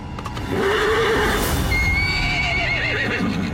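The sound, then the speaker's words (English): A horse neighs in the Metal Gear Solid V video game: one loud, sustained whinny with a shrill, wavering pitch that carries on strongly to the end. “But then an old face, well, let's call it a medium-aged face, shows up on horseback to save V.”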